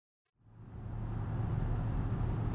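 A car driving along: after a moment of silence, a low, steady engine and road rumble fades in with a faint hum and then holds at an even, quiet level, with no talk.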